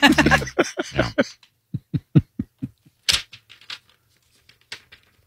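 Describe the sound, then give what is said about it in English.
Paper being folded: a brief voice opens, then a run of crisp crinkles and creases, one louder sharp crackle, and a few sparse, softer rustles. “Well, glad you folded that paper so nicely.”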